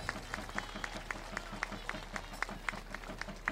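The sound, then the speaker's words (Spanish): Crowd applause at a gathering awaiting a papal visit, faint and steady with rhythmic claps sounding at an even beat, voices mixed in underneath. “Fuerte el aplauso al cielo y apurando la visita de León.”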